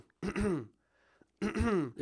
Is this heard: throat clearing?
yes

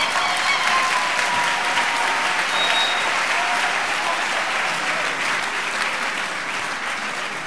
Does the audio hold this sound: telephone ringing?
no

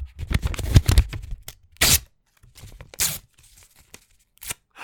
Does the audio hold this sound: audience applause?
no

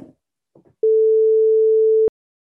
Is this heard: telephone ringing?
yes

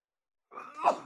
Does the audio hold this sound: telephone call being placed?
no

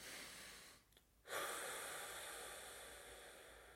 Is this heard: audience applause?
no

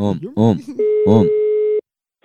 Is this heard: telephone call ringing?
yes

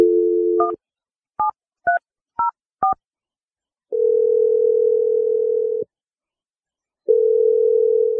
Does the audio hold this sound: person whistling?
no

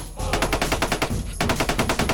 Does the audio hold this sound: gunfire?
yes

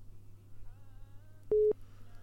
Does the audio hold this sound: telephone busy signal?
yes

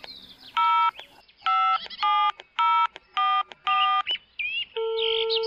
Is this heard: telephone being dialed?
yes

